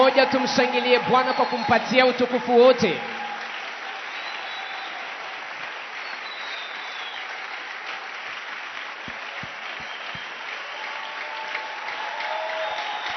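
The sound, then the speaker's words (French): A church audience applauds to acclaim the Lord. Loud voices fill the first few seconds, then steady, sustained clapping continues at a lower, even level to the end. “Je voudrais qu'ensemble nous puissions acclamer le Seigneur pour lui donner toute la gloire.”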